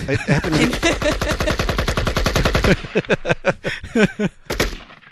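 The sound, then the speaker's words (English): Machine gun fire at the Scottsdale Gun Club in Arizona: a long, rapid burst of many sharp shots, followed by more broken, irregular bangs. “your kids can hold machine guns. Nice. What? Where? At the mall? Scottsdale, Arizona, at the Scottsdale Gun Club. And basically, wait a minute. I got some audio of that place.”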